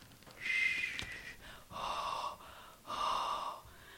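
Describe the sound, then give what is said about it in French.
Breaths pushed out in cold air: three distinct airy exhalations, rough and slightly hissing, each lasting under a second, with a brief click between the first and second. “Oh, t'as vu? Ça fait des petits nuages quand je respire.”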